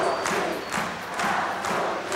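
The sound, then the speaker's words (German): A concert crowd in Poland clamours for more, its shouting and stomping rising in regular rhythmic surges roughly every half second, loud and continuous with no single voice standing out. “Aber in Polen gibt das Publikum keine Ruhe.”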